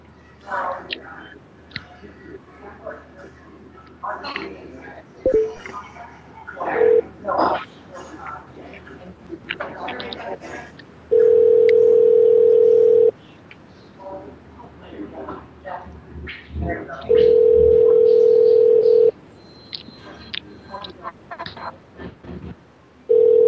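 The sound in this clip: A telephone rings on an outgoing call: several steady tone bursts about two seconds long, separated by gaps of a few seconds, with soft talking between the rings.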